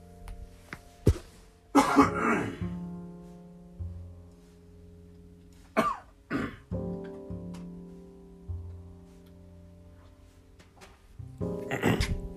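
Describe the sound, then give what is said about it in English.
Coughing during an allergy fit: several harsh coughs and throat-clearing bursts come in separate clusters with quiet pauses between them, the heaviest bursts near the start and at the very end. “Excuse me, just a minute. I have to have an allergy fit.”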